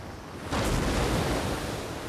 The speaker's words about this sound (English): Crashing waves.